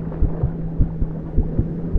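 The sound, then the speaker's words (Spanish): A heartbeat pounds in the head of someone struggling underwater, heard as regular, muffled, low double thumps over a steady low hum. “Los latidos en mi cabeza son cada vez más fuertes y rápidos.”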